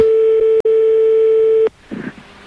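A telephone line tone plays while a call is placed to someone's aunt: a loud, steady, mid-pitched electronic hum that holds for under two seconds with one brief break, then cuts off to near silence with a short, faint sound.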